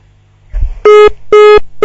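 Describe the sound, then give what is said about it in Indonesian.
Disconnection tone on a dropped phone call: a low thump, then three loud, buzzy beeps of equal pitch, evenly spaced and each lasting about a quarter second. “sambungan teleponnya terputus”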